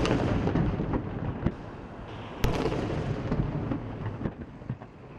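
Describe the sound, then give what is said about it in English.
Artillery fires a 21-gun salute at a memorial for Fidel Castro in Havana, a continuous rumbling roar of booms broken by a few sharper, louder reports. “Memorial services began early Monday after 21 gun salutes sounded simultaneously in the capital and in the eastern city of Santiago”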